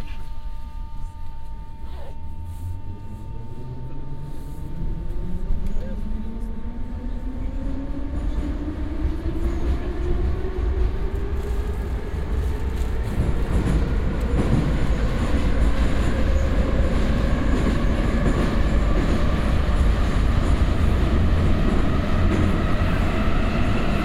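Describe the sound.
Metro train running: a steady, loud rolling rumble, with a motor whine that climbs in pitch as the train picks up speed over many seconds. No voices.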